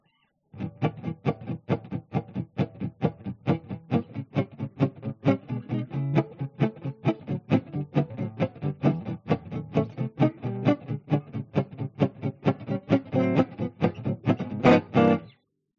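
Gypsy jazz rhythm guitar played without bass or a microphone, its chords heavily muted into many evenly spaced, choppy percussive strums in a steady driving pulse, alone throughout.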